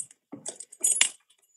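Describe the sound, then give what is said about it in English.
Keys jangle briefly as a key is found to unlock a cigar humidor, a few quick, bright metallic clinks and rattles lasting about a second. “I think I locked myself out of the humidifier. Oh, wait. I got the key to the humidifier.”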